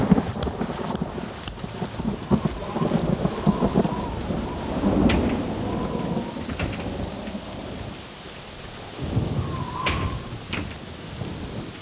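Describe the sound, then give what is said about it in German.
Thunder rumbles over steady rain on a rainy holiday in the town of Siena. Low, rolling peals swell and fade against a constant hiss of falling rain, with no voices. “Und dann noch bei Regen.”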